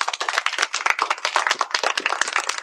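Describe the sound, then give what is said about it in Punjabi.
An audience applauds after a song performance with brisk, dense, loud clapping that holds steady throughout, with no voices over it. “ਧੰਨਵਾਦ ਜੀ, ਜ਼ੋਰਦਾਰ ਤਾੜੀਆਂ ਬਈ”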